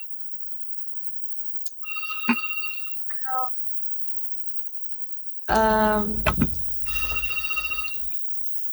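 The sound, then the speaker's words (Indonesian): Telephone ringtone sounding for an incoming call: a few bright electronic tone bursts, one warbling, with a voice briefly speaking between them. “ada yang nelfon ya.”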